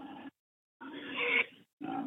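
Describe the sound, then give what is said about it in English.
Harsh squealing and grunting from a pet pig, coming in three loud bursts separated by short silences, with the middle burst the longest and loudest. “Petunia, no. Stop. I'm trying to call the launch. Oh, my gosh. Petunia. Bad pig. Bad.”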